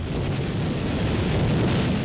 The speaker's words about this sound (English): That is the roaring wind in New York Harbor this morning